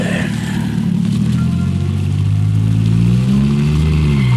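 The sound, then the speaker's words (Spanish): Rumbling engine of a heavy armored truck running after being switched on, a low, steady droning hum that swells and climbs briefly in pitch midway before settling again. “Hace una señal al árabe y este prende el switch del motor.”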